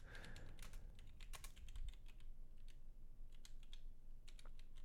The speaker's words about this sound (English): it's so easier for me to say what I'm typing for whatever reason. It's kind of a problem when I'm it's kind of a problem when I'm typing